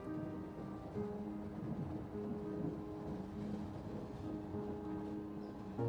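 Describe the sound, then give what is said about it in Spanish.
A train in motion gives a faint, steady low rumble with a droning hum running underneath, continuous and even throughout. “El tren está en movimiento.”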